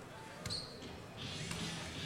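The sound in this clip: A basketball bounces during a dunk contest attempt: a couple of soft, dull thuds under a low murmur of crowd noise.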